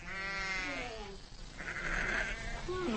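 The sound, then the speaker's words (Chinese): A ewe bleats while giving birth during the spring lambing season on the steppe, with long, wavering cries rising over a steady background hiss. “分娩中的母羊非常痛苦。在几个小时的挣扎和嘶嚎后，”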